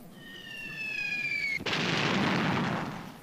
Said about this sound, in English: Oh yeah! There's a bomb for you.